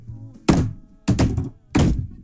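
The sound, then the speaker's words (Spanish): Three heavy knocks on a house door, evenly spaced, each a dull, booming thud with a short ringing decay, heard alone without any talking. “Y llegué a la puerta de su casa y le he tocado tres veces como un varón.”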